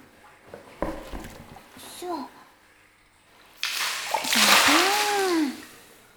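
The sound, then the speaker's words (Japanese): Warm bath water poured over a child's head makes a rushing splash that lasts about two seconds, while a child's voice and talk are heard around it. “そろそろ冷めたし、お湯頭からかけるよ。”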